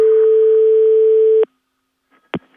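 A telephone line tone after the other party hangs up: one steady, buzzing electronic tone holds for about a second and a half, cuts off abruptly into silence, and is followed by a single sharp click.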